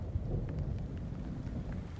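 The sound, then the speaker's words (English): Heavy rain pours steadily from a storm rolling over open plains while low thunder rumbles beneath it, a dense, constant hiss with a deep undertone and no voices. “the morning sun is going to vanish as storm clouds roll over the plains, and it begins to rain hard,”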